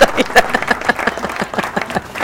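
Applause breaks out in a burst of hand claps, uneven in rhythm and moderately loud, with the level rising and dipping throughout.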